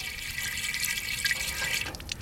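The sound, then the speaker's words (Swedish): Water runs from the tap of a temporary water tank as a steady hissing trickle with a light splashing texture. It is heard alone, with no voices. “Men nu har jag bett mig till Ersboda och står vid en tillfällig tank. Så kan vi prova lite om det kommer någon vatten i den.”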